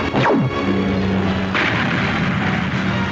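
Rockets are fired and explode in an animated action scene: a loud launch with a sharply falling whistle, then a heavy booming blast midway, all under a dense continuous roar with no speech.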